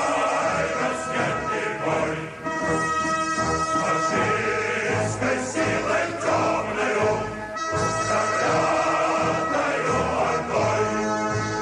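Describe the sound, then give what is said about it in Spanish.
A Soviet patriotic song plays as loud, dense music with rich sustained harmonies, steady in level throughout and without any talking. “El tema musical que suena ahora se llama La Guerra Sagrada, una canción patriótica soviética que se convirtió en el himno de la defensa”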